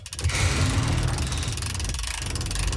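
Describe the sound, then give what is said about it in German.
Mechanical grinding and rattling from a hand crank lowering a platform mechanism runs steadily through the whole stretch, a dense, even texture with a heavy low rumble and no pauses. “Ich stell mich mal drauf und du bewegst die Kurbel. Ich fahre runter und dann kann ich auch gleich mal nachsehen, wie man den Mechanismus von unten steuert.”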